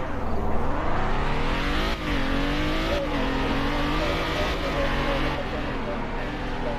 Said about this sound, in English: What in the world? Secret Service van. Alright, let's ride.